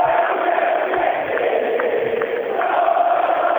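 A packed stadium of Independiente football supporters roars in a dense, continuous wall of crowd noise that holds loud and steady throughout, with muffled, dull-edged tone.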